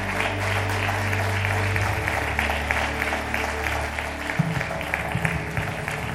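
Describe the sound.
Applause from a church audience welcoming a missionary guest speaker, with dense, steady clapping that holds at an even loudness for the whole stretch and low sustained tones underneath.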